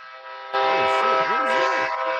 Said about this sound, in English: Oh, sorry, that's the train.